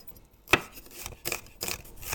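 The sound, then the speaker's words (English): A knife chops onion and dices garlic on a board in a kitchen while soup is prepared, giving a few faint, irregular cutting strikes with no talk. “we are chopping up our onion and dicing our garlic as we wait.”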